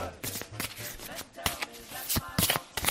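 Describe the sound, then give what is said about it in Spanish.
A deck of playing cards being shuffled, giving many rapid crackling riffles and sharp papery snaps in irregular bursts. “El sonido de una baraja de cartas antes de ser puesta alrededor de una mesa.”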